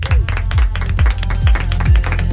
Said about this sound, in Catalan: Avui m'aplaudeixo jo.